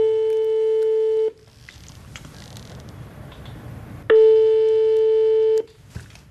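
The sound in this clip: Telephone ringback tones from a call placed by a transplant coordinator at a Liège hospital: two long, steady, mid-pitched buzzing tones, each over a second long, separated by a few seconds of faint line noise.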